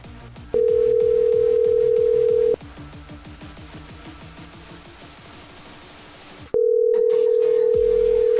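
An outgoing telephone call rings unanswered: two long, steady ringback tones, each about two seconds, with a stretch of dense, rapid clicking and line noise between them.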